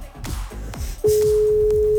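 A single steady ringback tone as a call rings through before being transferred to voicemail, holding one even pitch for about a second after a few soft low knocks.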